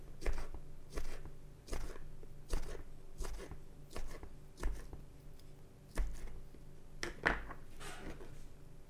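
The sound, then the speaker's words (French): A knife slicing Strasbourg sausages into rounds while cooking, a run of many crisp, evenly spaced cuts over a faint steady hum, with no talking. “Donc, je coupe les Strasbourg en rondelles.”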